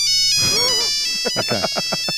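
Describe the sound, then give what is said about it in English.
An old phone's ringtone plays as a steady electronic tone with a warbling melodic line and short repeated notes toward the end. “can we find Melbourne's oldest phone? I want a phone ringtone similar to this.”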